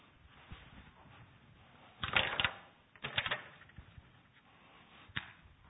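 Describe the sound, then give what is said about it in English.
Scratchy strokes of words being written on a board, a few short clustered bursts separated by quiet pauses. “I'm going to just write a couple of words on the board here.”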